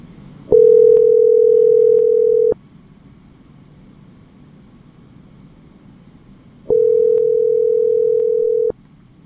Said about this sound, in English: Let's call my phone.